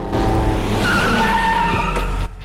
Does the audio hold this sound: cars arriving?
yes

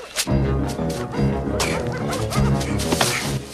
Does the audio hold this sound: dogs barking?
yes

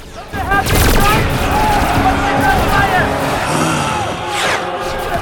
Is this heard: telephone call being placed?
no

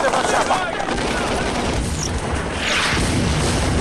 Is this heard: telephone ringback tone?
no

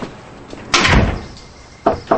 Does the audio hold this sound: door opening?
yes

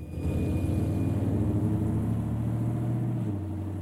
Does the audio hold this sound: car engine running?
yes

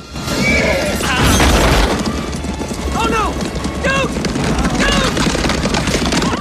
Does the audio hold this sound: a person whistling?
no

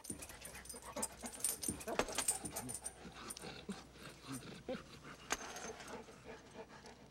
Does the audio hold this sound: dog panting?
yes

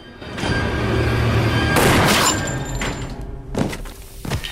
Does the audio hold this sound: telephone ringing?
no

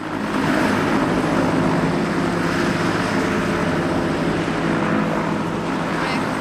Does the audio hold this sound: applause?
no

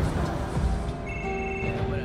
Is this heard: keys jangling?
no

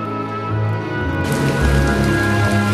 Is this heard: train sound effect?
no

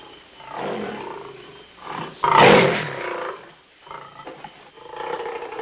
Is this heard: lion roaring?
yes

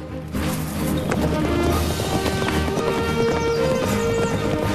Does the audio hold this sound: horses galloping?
yes

